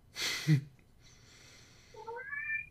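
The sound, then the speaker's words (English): A cat gives one short meow that rises in pitch. It follows a brief breathy burst and a quiet pause, and no voices are heard. “Be quiet, cat.”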